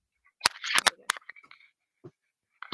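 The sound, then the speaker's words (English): Rustling of thick, high-quality paper pages in a planner: a short cluster of crisp rustles and clicks, then a few fainter, sparse ones. “No, I just think you're rustling the pages, and because they're such thick quality, we can hear the rustling.”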